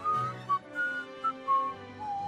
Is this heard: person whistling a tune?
yes

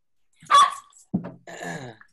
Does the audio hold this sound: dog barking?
yes

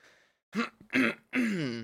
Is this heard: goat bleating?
no

